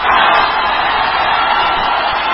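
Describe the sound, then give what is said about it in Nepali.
Crowd hooting as politicians arrive at a party convention: a dense, loud, continuous roar of many voices that stays level for the whole stretch. “निर्धारित समयभन्दा झण्डै 1.5 घण्टाको पर्खाईपछि रवि र बालेन महाधिवेशन स्थलमा पुग्दा सुनिएको हुटिङ हो यो।”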